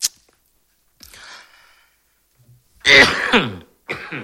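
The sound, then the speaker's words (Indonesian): A person coughs with a rough, throat-clearing quality. A faint breathy sound comes first, then a couple of harsh bursts separated by near silence, the later ones loudest. “Batuk, taeta batuk.”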